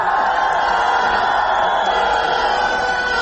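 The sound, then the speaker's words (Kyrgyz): Crowd shouting "stadium" together, a loud, steady mass of voices holding at an even level for the whole stretch. “Азыр мына кыйкырып атасыздар стадион деп.”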